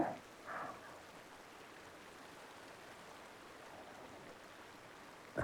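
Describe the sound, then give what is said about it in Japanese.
Gently flowing river water: a soft, continuous wash of rushing noise that stays faint and even, with a couple of brief louder touches at the start and end. “川の流れも穏やかで、”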